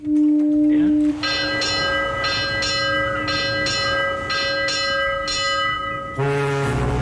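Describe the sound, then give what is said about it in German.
A ship's bell rings as a ship leaves port, its clear metallic strikes falling in repeated pairs over a low steady hum. A sustained tone comes before the strikes, and a different tonal sound follows at the end. “Wie oft hat da die Schiffsglocke geläutet?”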